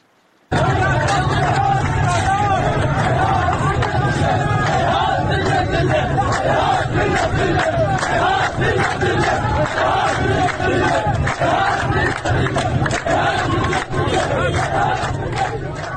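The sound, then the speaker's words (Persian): Protesters gathered outside the home and office of the Dasht-e Azadegan member of parliament chant the slogan "Heyhat minna al-dhilla" in a loud, unbroken mass of shouting voices that holds steady throughout. “یکی از ویدیوها نشون میده مردم معترض مقابل منزل و دفتر قاسم ساعدی، نماینده دشت آزادگان، تجمع کردند و شعار هیهات من نزل نسل میدن. ما هم بشنویم این صدا.”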